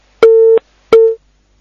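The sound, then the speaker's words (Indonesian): A telephone busy signal sounds after a dropped call. It gives two loud, steady, mid-pitched beeps of about a third of a second each, separated by a short silence. “Qadarullahumma terputus sambungan teleponnya.”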